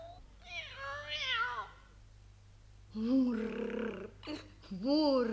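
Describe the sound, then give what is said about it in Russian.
A white fluffy cat meowing, a few drawn-out, wavering meows of moderate loudness separated by a quiet pause, the last ones arriving closer together. “вот хотя бы вот этот белый пушистый кот, что проскользнул сейчас в комнату”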